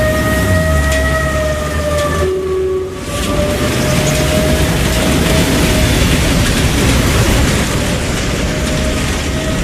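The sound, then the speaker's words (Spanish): Sound effects of an 18th-century ship at sea: a loud, steady roar with a sustained whistling tone running through it, briefly dipping before the roar carries on. “Este barco del siglo XVIII lleno de marineros enfermos de escorbuto, nos hemos unido a San Sebastián.”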